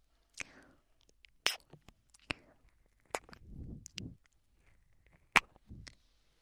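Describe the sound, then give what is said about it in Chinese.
Wet kissing smacks from a clingy girlfriend role-play, a few sharp lip pops spaced irregularly apart. Soft breathy and mouth sounds fill the gaps between them. “等一下，我再多亲一口，找找感觉。”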